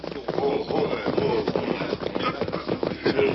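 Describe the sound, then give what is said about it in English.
Horses' hooves clip-clop in a busy, uneven rhythm as an outlaw gang mounts and rides off toward a hidden spot near a track, with shuffling sounds mixed in. “The outlaw group discussed their plans for a few moments, then mounted and rode to a spot near the track where they were completely hidden from sight.”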